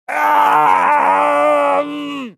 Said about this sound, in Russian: Столь наполненного страданиями крика мне не доводилось слышать никогда.